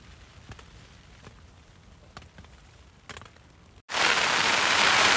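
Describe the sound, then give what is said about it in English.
Hail pattering down during a deer-hunting outing: several seconds of scattered light ticks and taps, then an abrupt switch to a loud, dense, steady rushing hiss. “We'll add just a few more seconds of pitter-patter from the hail drops.”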